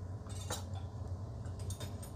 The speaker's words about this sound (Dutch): Deksel een beetje schuin erop. Zodat hij niet eh, helemaal afkoelt.